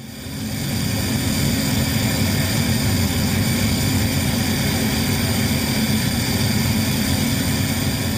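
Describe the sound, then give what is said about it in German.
Aircraft jet turbine starting up, building within the first moment into a loud, steady roar with a high, sustained whine layered on top, holding constant to the end. “also ich habe mitgenommen den Turbinensound, wenn wir eine Turbine starten, weil dann weiß der Kunde, der dann bereits im Flugzeug sitzt oder gerade zum Flugzeug hingeht, jetzt geht's gleich los.”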